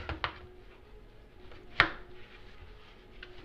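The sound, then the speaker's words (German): Knife strokes on a cutting board as a roughly 15 cm piece is cut lengthwise into strips: a couple of faint, sharp knocks over a quiet background, one clearly louder than the rest. “Ich schneide mir mal so ungefähr 15 cm langes Stück ab. Schneide es längs durch. Schneide die Hälften noch einmal längs durch.”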